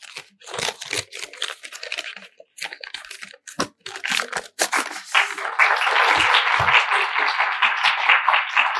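Crinkling and tearing as the packaging around a book is pulled open. Irregular bursts of crackly rustling come first, then a steady stretch of continuous crumpling.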